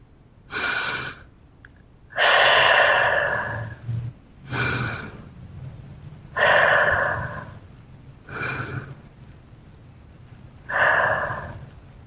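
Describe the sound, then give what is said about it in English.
Three slow, deep breaths, each a breathy inhale followed by a longer exhale, steady and unhurried with quiet pauses between, as part of a mindfulness practice. “So S, stop. Stop what you're doing. T, take 3 deeper breaths.”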